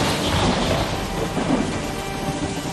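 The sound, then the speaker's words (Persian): Thunder rumbles through a storm over steady heavy rain, a loud, continuous low roar that carries without a break. “رعد قرید”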